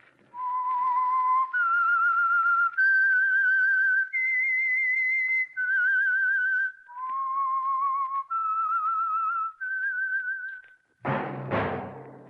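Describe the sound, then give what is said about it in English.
A lone whistled tune used as a radio program's signal: eight sustained, clear notes that climb, dip and climb again, then a sudden loud, broad noisy burst at the end. “That whistle is your signal for the Signal Oil Program, The Whistler.”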